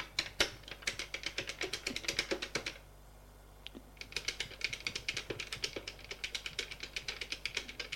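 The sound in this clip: Typing on a computer keyboard: many quick keystrokes in a steady run, a pause of about a second, then another long stretch of rapid typing. No voices are heard.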